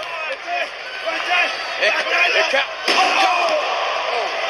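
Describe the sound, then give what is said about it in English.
A wrestler is slammed knee-first into steel ring steps at Madison Square Garden, making a loud, sharp impact that cuts through a roaring crowd while commentators talk over the action. “Triple H used Cactus' own momentum to hip lock Cactus right into those steel steps, and Cactus' knee, you saw that. His knee just wrapped around the steel steps.”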